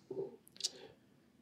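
A computer mouse click opens a search result: one short, sharp click, faint and alone.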